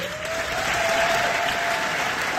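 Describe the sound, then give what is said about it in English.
Audience applause at an Army Physical Training Corps pass-off parade for new instructors at Fox Lines, Aldershot Garrison: a continuous, even burst of many hands clapping that stays steady throughout. “ladies and gentlemen, for one last time, please congratulate the All-Arm Physical Training Instructors Course 87 and the RAPTC Course 245.”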